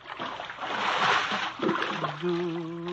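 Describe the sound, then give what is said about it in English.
Splash of a person pushed overboard from a lifeboat: a broad watery rush and slosh that swells, breaks off, then surges again with a second splashy burst before settling. “Hey, why you're pushing me overboard? Hey! Help, Willie. You mustn't wake the others. But I can't swim.”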